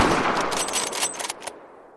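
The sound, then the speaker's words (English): Soviet sniper rifle gunshots fired at German soldiers in a building window across frozen streets: a loud burst of gunfire with a few sharp cracks, then a quick fade into silence. “Figures in the window were pushed back with the force of the bullets. The recoil of the gun hit Victor's shoulder.”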